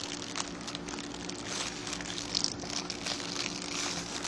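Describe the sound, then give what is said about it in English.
Soft crinkling and crackling of a cracked egg shell peeled by hand, a faint, continuous rustle without voices. “And then, you peel the egg, because the shell is already cracked, so you can peel it. Peel it with your hands.”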